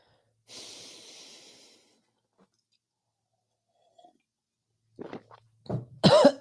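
A person coughing after something went down the wrong way. A long breathy rush of air comes first, then a pause, then a few short harsh coughs and throat-clearing sounds.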